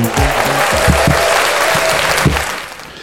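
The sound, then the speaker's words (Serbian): Thunderous applause, dense and loud, sustained for most of the stretch before easing off near the end. A few bright musical notes ring out at the start. “ovaj gromoglasni aplauz je sasvim sigurno znak da je e, nova epizoda”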